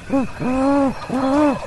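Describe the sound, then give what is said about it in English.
A man's voice imitates a great horned owl, giving three deep, rounded hoots in a short rhythmic sequence. The middle and last hoots are held longer, and all three are loud and clear. “He takes a deep breath and hoots like a great horned owl.”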